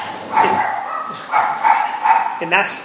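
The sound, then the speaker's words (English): Barking from two guard dogs: a few short, sharp yipping barks in separate bursts, fairly loud, with a quick cluster of barks near the end. “good guard dog. More than one? There's two, I see.”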